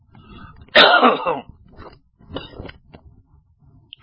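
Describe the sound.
Coughing and throat clearing from a speaker whose throat is irritated by the wind: one loud, rasping clear of the throat, then a few softer coughs and throaty noises.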